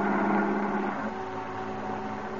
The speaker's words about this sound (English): In a dark and desolate section of the city, his cab veers sharply around a corner and pulls up in front of a gloomy, old, rickety building.